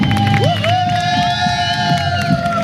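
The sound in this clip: Spectators cheering and whooping to encourage a runner on a 158 km trail race, a loud burst of mixed shouts and calls from a crowd.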